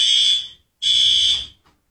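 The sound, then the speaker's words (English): A pulled fire alarm sounding in a building, giving two long, loud, high-pitched electronic tones separated by a brief silence. “Can you unpull the fire alarm after you pulled it?”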